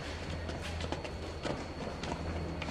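Footsteps descend stone steps in a grand building as other people pass on their way up, giving a few light, irregular taps over a low, steady background.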